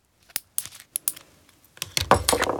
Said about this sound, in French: Depuis ce matin, Toudou est enfermé dans la salle de bain. Il se fait beau. Il se coupe les griffes.